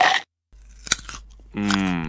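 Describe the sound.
Crisp, crunchy chewing of a carrot right against the microphone, with a few sharp bites and crunches standing out against the quiet gaps.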